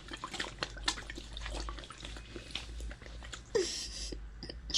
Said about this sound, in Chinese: 别看了，闻什么直接喝，来，我灌着你喝。